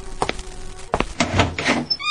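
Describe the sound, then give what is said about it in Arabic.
A door being opened in a home for a visitor: a few sharp clicks and thuds, then a rattling, scraping stretch, ending in a brief high squeak. “افتح الباب”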